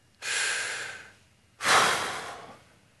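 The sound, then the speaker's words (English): A group of people at a religious gathering take a deep breath together, a long airy inhale followed after a short pause by a stronger, sighing exhale, with no talking. “Close your eyes, please. Everybody take a deep breath.”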